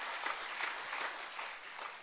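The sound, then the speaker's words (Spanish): Applause from an audience at a gathering in Canada, a faint, steady wash of many hands clapping with no distinct individual claps. “Así que vamos a dar un aplauso al Señor que podemos haber estado aquí en Canadá por primera vez.”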